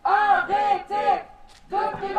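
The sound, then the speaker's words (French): Students protesting outside the University of Tours against a decree on foreign student fees chant in rhythmic bursts of voices, a few short shouted phrases broken by a brief pause before the chanting resumes. “Devant l'université de Tours, une quinzaine d'étudiants manifestent leur opposition au décret Bienvenue en France 2.”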